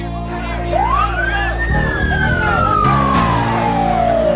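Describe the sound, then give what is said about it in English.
An ambulance siren wails loudly, its pitch rising in one sweep and then falling slowly, over a steady low rumble. “He's put in the ambulance.”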